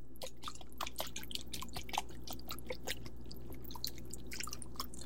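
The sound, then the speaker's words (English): Whisking a marinade made with rice wine vinegar: many quick, faint wet clicks and splashes in an irregular rhythm, carrying on through the whole stretch with no talk. “So we're gonna go ahead and give this a nice whisk.”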